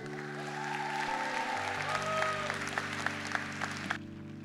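An audience at a church youth night applauds steadily to welcome a pastor to the stage. Dense clapping runs throughout over sustained keyboard-like musical tones, which cut off shortly before the end while the applause continues.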